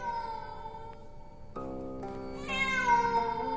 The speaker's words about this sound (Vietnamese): đâu đó văng vẳng lên trong không gian, tiếng con mèo kêu. Con mèo kêu lên vô cùng thê thiết.